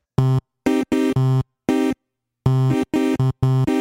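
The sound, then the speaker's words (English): An Alpha Juno synthesizer from the Juno series plays many short, punchy chord stabs in a choppy rhythm, each buzzy, harmonically rich burst cutting off sharply into silence, loud and alone. “Back to the Juno series. You've heard these things. They sound like this.”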